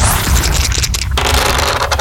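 Dice roll for a pop rock dice game, giving a loud, continuous rattling scrape that lasts about two seconds with no voices.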